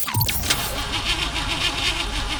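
A car engine cranks repeatedly without catching in a car said to have run out of oil. The starter churns in a steady, rhythmic whirring loop, moderately loud, with no clear catch or rev.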